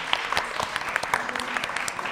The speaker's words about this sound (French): Vous pouvez applaudir Jean-François. On a bientôt fini. Beaucoup d'applaudissements aussi pour Benjamin de News FM.